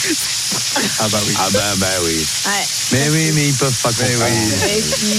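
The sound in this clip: Sausages and vegetables sizzling on a barbecue grill, a steady bright hiss running continuously beneath a conversation between several people.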